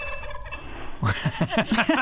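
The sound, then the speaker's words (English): A blue jay imitating a hawk call gives a rapid run of harsh, throaty notes that starts midway through and stays loud after a quiet opening. “So what you were hearing was a blue jay imitating”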